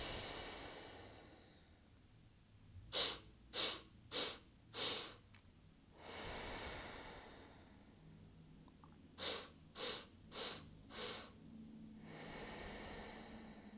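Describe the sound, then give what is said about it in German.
Breathing exercise: two rounds of four quick, sharp nasal inhalations, each round followed by one long, soft, hissing exhalation. The breathing is quiet and steady, with no talking. “Und zwar setzt du dich hin, atmest 4 Atemzüge ein und einen langen Atemzug aus.”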